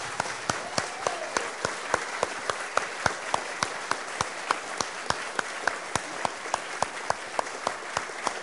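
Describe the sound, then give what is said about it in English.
An audience applauds to welcome a new community member, a steady wash of clapping with sharp individual claps standing out throughout. “Can I suggest that you put your hands together and offer a real warm welcome to Joe?”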